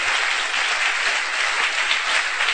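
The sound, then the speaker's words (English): An audience claps, producing a bright, dense patter of many hands. The applause stays loud and continuous, with an even texture throughout and no voices over it. “Oh, you want to clap, clap, please.”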